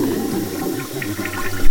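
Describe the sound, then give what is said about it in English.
A toilet flushes in a cell with a steady rushing, gurgling wash of water that swells louder at the very end. “Here's the tour of the cell. This is the toilet? And this is the sink.”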